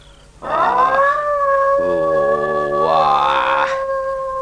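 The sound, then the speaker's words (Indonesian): A wild dog howls in a long, sustained tone that starts abruptly. A second, lower howl joins partway through, and the two voices hold together for a few seconds before cutting off. “Kenapa anjing hutan itu melolong terus begitu?”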